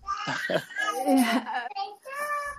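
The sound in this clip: A 3-year-old girl babbles with giggly, lilting vocal sounds, a continuous stream of high childish syllables and little laughs running the whole way through.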